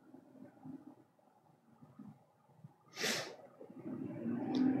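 A single sharp sneeze bursts out briefly over a low rumbling background, followed by a rising murmur of noise.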